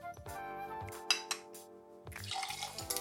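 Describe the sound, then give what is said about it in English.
A spoon stirs ice and vodka in a glass for a Bloody Mary, giving bright, irregular clinks and rattles of ice against the glass over a faint liquid swirl. “Give that a stir.”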